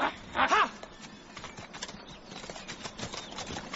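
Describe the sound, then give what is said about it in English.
Hoofbeats of horsemen riding with hounds in a hunt, opening with a short loud tonal cry and then a steady, busy rumble of many hooves at moderate loudness. “Look! On the far ridge! Horsemen! And hounds! I spoke too soon. They have our scent. The hunt is up with our vengeance.”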